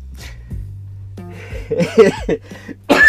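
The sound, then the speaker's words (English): Coughing and throat clearing to bring up phlegm: a few harsh, rasping bursts separated by pauses, with the loudest cluster in the middle and a sharp final burst at the end. “Sorry. Had some phlegm in my throat.”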